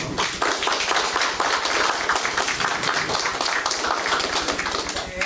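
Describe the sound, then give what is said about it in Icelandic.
Audience applause after the signing of an agreement with town officials: dense, loud clapping from many hands, steady and continuous throughout, easing slightly at the very end. “nú held ég líka alveg óhætt að klappa.”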